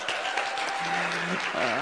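A church audience applauds to welcome first-time visitors, a steady wash of clapping that lasts throughout, with soft sustained instrumental tones beneath it.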